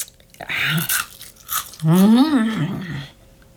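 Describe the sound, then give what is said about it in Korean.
A mouthful of crunchy snacks being chewed, with a few loud crunching bites and a voice vocalizing briefly alongside. “그러면서 다시 한 움큼 집어서 입에 밀어넣었다. 채 씹지 않아 입에 가득한 과자를 보자”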